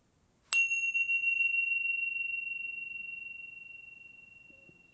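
A single bell is struck once during a guided relaxation session, giving a clear, high tone that rings on and slowly fades over several seconds.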